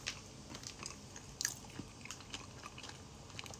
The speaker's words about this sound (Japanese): 咀嚼音がしますので、ご注意ください。